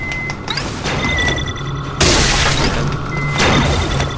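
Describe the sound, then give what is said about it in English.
Explosive game effects as a caretaker enemy in a video game throws missiles and grenades: two loud, harsh bursts of blast noise, one sharper than the other, over a steady bed of tonal game sounds and low hum. “That caretaker is trying to throw missiles, those little sounds you're hearing.”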